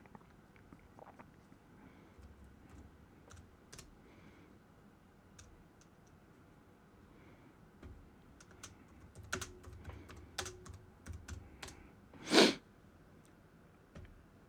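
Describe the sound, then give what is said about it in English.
Typing on a computer keyboard starts as quiet, sparse keystrokes and builds into a denser run of clicks, ending with one louder, sharper click. No one talks. “Let me just type into the Google machine here real quick.”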